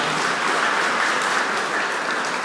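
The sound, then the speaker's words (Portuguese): Applause from an audience for all the groups at a community gathering, a steady, dense wash of many hands clapping at even loudness throughout, with no voices standing out. “Vamos dar uma salva de palmas para todos os grupos.”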